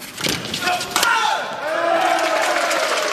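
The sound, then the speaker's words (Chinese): An indoor arena crowd cheers for the Chinese team during the second set of a match, a loud, dense roar with one sharp impact partway through and sustained vocal tones after it. “现场给中国队加油助威的声音响彻整个体育馆”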